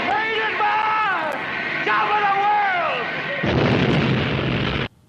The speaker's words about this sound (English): Then the tank explodes and the movie ends.